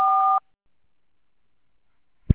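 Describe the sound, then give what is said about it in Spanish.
Answering machine beep: one short, steady electronic two-tone signal, loud and clean, then a long silence and a brief low thump at the end. “Por favor, deje su mensaje después de la señal.”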